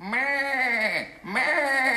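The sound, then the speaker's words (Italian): A sheep at a sheepfold bleats twice in long, wavering, nasal cries. The first call drops in pitch at its end before a short pause and the second call. “Se loro signori ascoltano attentamente il verso della pecora, potranno notare che la pecora non fa come pretende la convenzione letteraria”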